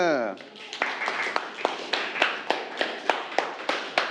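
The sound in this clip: Students in a classroom clapping in unison, many sharp claps in a steady, even rhythm following a brief bit of talk at the start.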